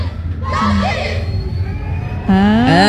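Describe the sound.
Audience members cheer, shout and whoop at a live performance, loud excited voices rising and falling together in an unbroken burst.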